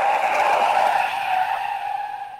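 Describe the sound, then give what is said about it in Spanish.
A car skids to a stop with a loud, sustained high-pitched tire squeal that holds a steady pitch and eases slightly toward the end. “Ya, ya para el coche.”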